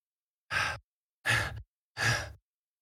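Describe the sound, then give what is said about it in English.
Three short, sharp breaths, evenly spaced about three-quarters of a second apart, with no voice; bated, held-in breathing set in the woods as a floating wisp draws closer. “This time, it's different. You can hear breath, bated.”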